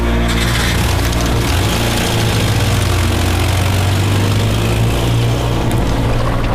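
A car engine rumbles steadily and loudly, a low continuous drone that holds through the whole stretch with no voices.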